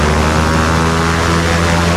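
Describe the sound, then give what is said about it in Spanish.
Propeller airplane engines roar as a plane carrying more than 6,000 letters of mail begins its takeoff, a loud, dense, unbroken droning rumble with steady low tones throughout. “El avión se sacude. Los motores empiezan a rugir, primero indecisos, después con fuerza.”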